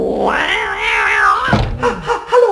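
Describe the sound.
A cat sitting on a box lid meows in one long, drawn-out cry whose pitch wavers up and down, followed by a few shorter, rougher calls.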